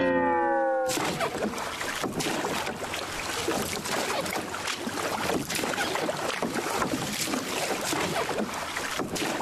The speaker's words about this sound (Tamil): அதே இடத்துல நிக்கிற அந்த சுறா மீன்களை நோக்கி நம்ம போட்டை நகர்த்தி கொண்டு போவோம்.